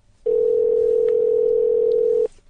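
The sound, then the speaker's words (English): A home telephone line rings from the caller's side as a ringback tone: one steady, unbroken electronic tone lasting about two seconds, clear and alone, then cutting off. “He's just listening to it ring and being really pissed off because it's his home phone and he probably can't shut it off because there's several inside the house.”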